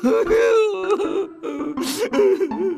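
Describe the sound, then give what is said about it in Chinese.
A man crying, with wavering, whimpering sobs and a breathy gasp in short uneven bursts. “爸爸别哭”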